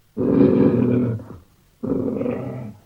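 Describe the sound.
A lion's deep, growling roar, the jungle's king in a story, sounds in two loud, rough bursts. The first lasts about a second, and the second follows after a short silent gap.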